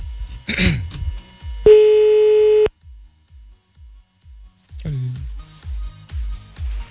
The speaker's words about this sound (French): C'est parti, on fait un petit appel.